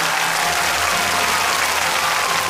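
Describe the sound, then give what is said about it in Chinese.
Sustained applause from an audience for children's choir delegates from across Liaoning, dense and steady from start to finish without a break. “我们要把这个掌声送给来自辽宁各地的儿童合唱团的这些代表们”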